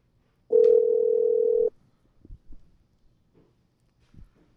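Telephone dial tone while a call is being placed: a steady single-pitch tone holds for a little over a second, then stops, followed by a few faint, soft scattered sounds.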